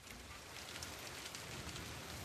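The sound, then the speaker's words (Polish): Heavy rain pours down in a national park, a dense, steady hiss of countless drops with no breaks or voices. “Ale ulewa.”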